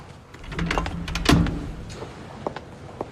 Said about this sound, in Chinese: 帮我把门关上。